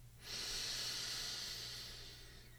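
A single deep inhalation during a gentle morning stretch. It is a steady, airy hiss that swells quickly, holds for about two seconds and eases off slightly toward the end, with no talking.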